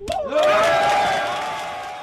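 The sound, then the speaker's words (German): People aboard the rescue ship Alan Kurdi erupt in cheering at news of reaching Malta. A sudden collective shout swells fast and climbs in pitch, then holds as a sustained roar that slowly fades. “Der Jubel auf der Alan Kurdi war groß, das sieht man in dem Video, das die deutsche Organisation veröffentlicht hat.”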